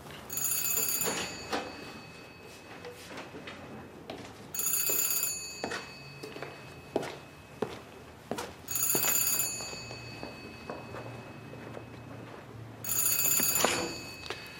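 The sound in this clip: A telephone bell rings in four long, shrill bursts separated by pauses of a few seconds. Each burst is bright and metallic and rises well above a low, busy background.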